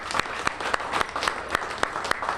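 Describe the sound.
Audience applause for a woman's long fight during a speech about Minnesota craft brewers: dense, steady clapping with a few sharper peaks standing out, heard alone without talk.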